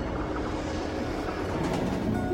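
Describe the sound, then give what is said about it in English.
A train at a railway station gives off a steady, low mechanical rumble with a faint hiss above it. The level stays even throughout, with no distinct clacks or voices. “Double locking the door, he picks up his case and heads for the railway station.”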